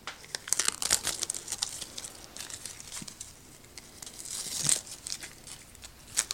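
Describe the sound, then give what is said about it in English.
Sticker peeled off an elastic novice ball: a faint, crinkly tearing rustle that runs throughout, with a few brief, sharper bursts standing out from the quiet. “Remove the sticker from the ball for the elastic here. I guess this is the sticker. So you just remove that, like so.”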